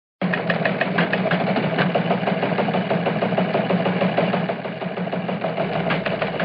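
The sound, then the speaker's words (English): Teletype machines clatter in a press room, a rapid, steady mechanical chatter that runs unbroken from start to finish with no talk over it. “You heard the teletype machines going, so we got some hot news from the press room, as they say.”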